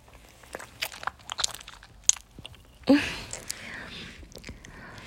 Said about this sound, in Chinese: 我在吃冰棍儿呢。